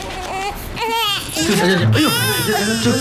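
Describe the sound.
A baby cries loudly at a shared meal in a restaurant, a continuous high wailing with sobbing breaks, while adult voices talk over it.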